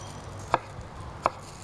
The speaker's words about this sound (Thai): แล้วก็หั่นแตงกวาเราจะหั่นที่มีลักษณะเป็นแท่งๆเหมือนกันนะคะเพื่อจะได้ห่อได้ง่ายขึ้นนะคะ